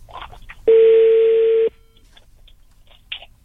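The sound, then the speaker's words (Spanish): A single steady telephone tone sounds while a phone number is dialed for a call. It is loud and even, lasts about one second, and is followed by faint background noise. “A ver, estoy marcando. Ojalá conteste tu cuñada.”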